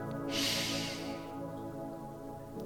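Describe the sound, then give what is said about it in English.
A single sharp, deep inhale through the nose as part of a cleansing-breath technique: a loud hissing rush of air lasting about a second, then fading over a steady low hum. “A deep inhale, a cleansing breath. So inhale sharply through your nose.”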